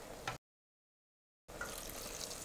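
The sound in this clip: Water pours into a cooking pot of meat seasoned with a sour ingredient. A short rushing pour stops abruptly, falls silent for about a second, then resumes as a steady, soft hiss.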